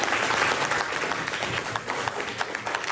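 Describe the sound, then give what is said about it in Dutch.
An audience applauds a guest after a question session at a national remembrance event: loud, dense clapping that starts full and then thins into scattered individual claps. “Als er verder geen vragen zijn voor meneer Ossendrijver, dan stel ik voor dat we hem nog een applaus geven”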